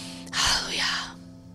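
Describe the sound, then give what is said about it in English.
A single deep breath drawn in: a breathy, airy rush that swells and fades over about a second, heard over a low, sustained background tone. “Let's get to it. Take a deep breath.”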